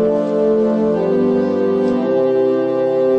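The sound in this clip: A large pipe organ sounds a cello-like celeste string stop, holding a rich, sustained chord. The chord shifts slightly early on, then rings steadily and evenly to the end.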